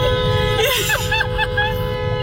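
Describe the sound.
A car horn in traffic sounds as a held, steady tone through the whole stretch, with voices and other street noise mixed underneath.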